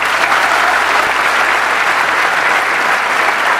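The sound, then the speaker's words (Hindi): Dense, steady applause from an audience fills the whole moment at an even, loud level, with no other sound standing out. “Let's give a big hand for her.”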